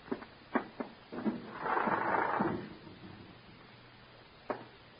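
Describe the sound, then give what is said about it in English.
A window being opened: a few sharp clicks and knocks, then a brief sliding rumble, followed by quiet and one last click. “I don't know. Go ahead, open the window.”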